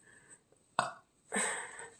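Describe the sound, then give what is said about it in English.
A person burps twice, a short abrupt burp followed after a brief pause by a longer, rougher, drawn-out one, both fairly faint with no talking. “Burped again.”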